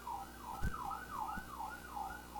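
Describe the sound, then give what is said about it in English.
Emergency vehicle sirens wail faintly, with a steady, repeating rise-and-fall cycle sweeping up and down several times and a few dull thumps underneath. “That's a lot of sirens.”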